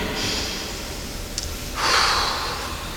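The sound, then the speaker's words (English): A person takes one deep breath, a short, noisy rush of air that stands out briefly above a steady, low background hiss. “So now, listen to this. Take a breath.”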